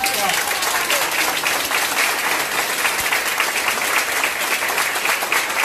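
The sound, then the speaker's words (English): Standing ovation from doctors and nurses at a hospital in Spain, surprising a taxi driver who drove patients for free: dense, steady clapping holds at an even level throughout, with no clear peaks or pauses. “That's the sound of a taxi driver in Spain who's taken patients to the hospital free of charge, and he got a call to pick up a patient from the hospital. And when he arrived, doctors and nurses surprised him with a standing ovation and an envelope of money.”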